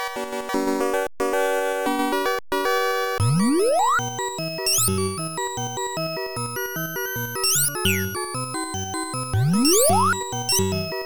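Electronic arcade game sounds from Sega's 1982 Pengo, a Z80-based vertical ice-block pushing game: bright chiptune melody over a bouncy bass beat, with repeated rising synth sweeps and brief gaps near the start, loud and continuous.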